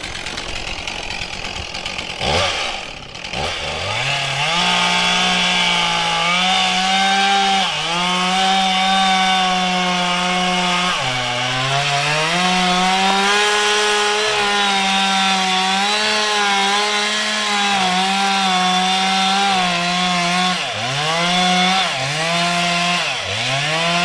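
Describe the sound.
A chainsaw cuts the felling notch into a standing tree trunk during forestry work. Its loud, continuous engine drone dips and climbs in pitch again and again as the chain bites into the wood, with no talk.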